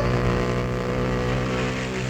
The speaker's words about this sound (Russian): Мотоцикл подхватил меня и понес.